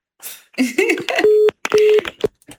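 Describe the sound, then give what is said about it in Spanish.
Telephone dialing tones: two short, steady electronic beeps sounding among talking voices and clatter. “Ya no tarda en marcar, ahorita va a marcar.”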